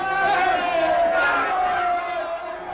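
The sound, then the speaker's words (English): A crowd cheers and shouts for George Washington after the British surrender in October 1781, a loud, sustained roar of many voices with shouted cries that eases slightly near the end. “Yes, the people cheered him and called him father of his country.”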